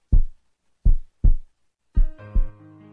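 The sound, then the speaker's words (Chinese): A heartbeat of deep, muffled thuds, about five in all, with soft lub-dub pairings. A sustained musical tone rises under the final two beats and lingers. “这是心跳的声音”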